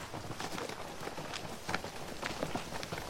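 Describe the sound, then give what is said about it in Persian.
Faint horse hooves beat in a quick, continuous patter of many soft strikes, like horses trotting or galloping, over a low background hiss. “صدای اسبه.”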